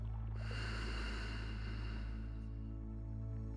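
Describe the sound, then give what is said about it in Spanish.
A deep exhale during a guided breathing exercise, a soft breathy rush lasting about two seconds over a faint steady hum, then fading. “Inhala. Sostén. Y exhala.”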